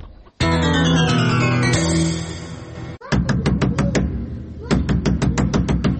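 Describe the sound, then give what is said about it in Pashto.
Hurried knocking on a door: many sharp, quick raps in two rapid runs, loud and insistent, following a sustained tonal passage. “څوک چې داسې په بیړه دروازه ټکایې”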